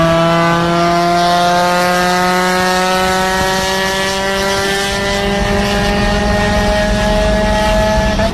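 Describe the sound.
An eighteen-year-old neighbour's car revs loudly at 4 am as he heads to work, the engine holding a sustained, buzzing drone at a fairly even pitch.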